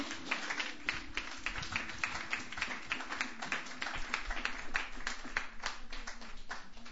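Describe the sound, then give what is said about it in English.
An audience at a Sunday night open mic claps and applauds, a dense patter of many hands clapping at a fairly steady loudness that dips slightly near the end. “Yeah, without further ado, put your hands together.”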